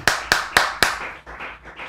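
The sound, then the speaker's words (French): Hand clapping from a church audience praising the Lord during a service: four sharp, evenly spaced claps followed by a few softer, more muffled ones. “Acclamons pour le Seigneur”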